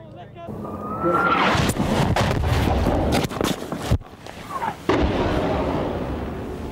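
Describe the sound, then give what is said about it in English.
Artillery fire from an artillery duel between two gun lines in a land battle against Argentine forces: a run of heavy, sharp booms and bursts over a continuous rumbling roar, loud throughout. “We're now between the two gun lines, and there's a right old artillery duel going on between them.”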